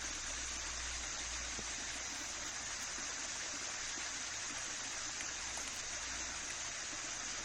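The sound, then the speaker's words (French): Fluorescent yellow chemical liquid gushes from two large pipes, a steady, unbroken rushing roar like a fast stream that holds the same level throughout. “Alors le liquide qui s'écoule, il est jaune fluo hein, par deux gros tuyaux.”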